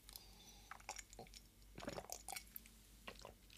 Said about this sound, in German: Nochmal einen Kaffee trinken, Moment.